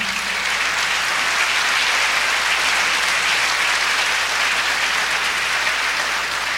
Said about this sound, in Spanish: pedirle un aplauso a todos los organizadores de este evento